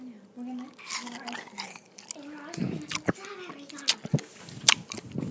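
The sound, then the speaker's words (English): Biting into and chewing a ripe strawberry: a few crisp bite snaps and wet, squelchy chewing noises, moderately loud, alongside brief vocal sounds. “And so now I'm just going to go ahead and bite it and find out how this strawberry tastes.”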